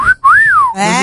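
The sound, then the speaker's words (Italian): A person whistles at someone, catcall style: a short note, a brief break, then a loud sweeping whistle that rises and falls, heard alone without talk. “Dai, fai una fischiatina a qualcuno che fa un bel bonifico”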